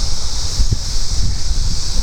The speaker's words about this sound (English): Oh, it's a little windy out here today.